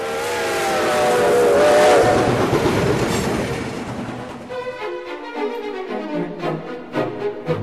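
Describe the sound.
A train arriving at a station, as in the Lumière brothers' 1895 film: a loud, broad rumble swells and then eases into a quicker rhythmic clickety-clack of wheels over rail joints, with no voices.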